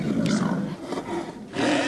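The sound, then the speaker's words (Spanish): A hungry lion roars in deep, rough, breathy bursts, moderately loud and alone, with short gaps between the rasping roars. “más tenía que rugir este león que tiene mucho, pero que mucho hambre”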